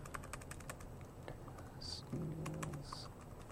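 Typing on a computer keyboard while entering an account name into a server setup dialog. Many light, rapid clicking keystrokes come in quick runs, faint and steady throughout.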